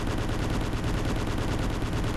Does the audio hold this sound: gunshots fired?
yes